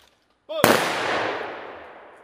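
A rifle volley fired in salute sounds as one sharp, loud report with a long fading tail, just after a brief shouted command.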